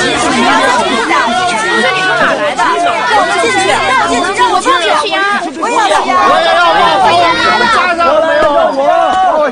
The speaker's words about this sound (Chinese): 吴处长啊，你听听，来咱们这儿报名的学生啊，把门槛都快踩烂了。